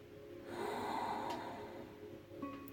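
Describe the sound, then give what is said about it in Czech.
A soft breath drawn in through the nose, then a slightly longer, calmer exhale during a guided breathing exercise, quiet and unhurried. “Nádech nosem. A výdech o malinko delší, klidnější.”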